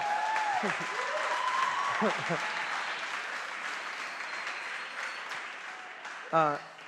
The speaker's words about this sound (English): And thank you for that overwhelming applause.